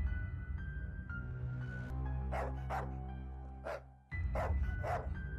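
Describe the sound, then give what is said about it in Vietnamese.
Sharp barks from a black dog ring out in a few quick bursts over a steady, low musical drone that briefly drops out midway. “Tiếng chó bất ngờ sủa vang lên, bà tự hỏi. Nghe như là tiếng con mực nhà mình.”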